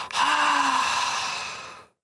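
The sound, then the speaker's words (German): A deep exhale through a wide-open mouth with the tongue out, done as a relaxation exercise. One long, breathy, airy breath rises quickly, holds steady and then tapers to silence. “Mund auf, Zunge raus, tief ausatmen”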